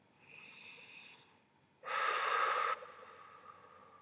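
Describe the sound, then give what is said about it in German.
Deep breathing during a relaxation exercise: one long, airy inhale, a short pause, then a louder, fuller exhale, heard alone and fairly quiet. “Atme einfach paar Mal tief ein und wieder aus.”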